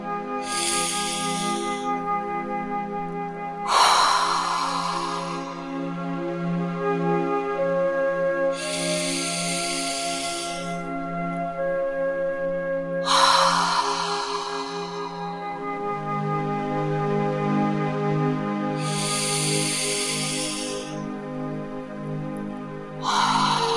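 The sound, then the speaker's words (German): Slow, deep breaths, drawn in through the nose and let out through the mouth, repeat as soft airy hisses at an even, unhurried pace over gentle sustained music. “nimm dir jetzt drei tiefe Atemzüge durch die Nase ein und durch den Mund wieder aus”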